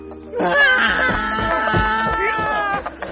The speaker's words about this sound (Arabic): وإذا الشيء يصيح بصوت مرتفع مما أجفلني وجعلني أنهق بصوت مرتفع.